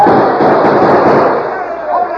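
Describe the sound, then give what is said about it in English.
Gunfire in a radio drama battle scene: a dense, loud, continuous barrage of crackling shots that blur together, with voices mixed in throughout. “The army, boys! Open fire on the outlaws!”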